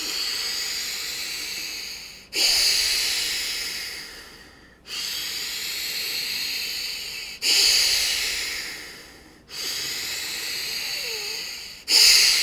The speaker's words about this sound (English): Deep breath in, expand the bellows. Strong breath out and squeeze and contract a little.